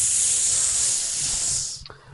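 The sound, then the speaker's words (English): A voice imitates steam with a long, breathy hiss that holds steady for nearly two seconds, fades slightly, then cuts off into a few short, faint noises. “He got shot and just air came out. He doesn't have any liquids in his system at all anymore. He didn't even bleed. Just steam.”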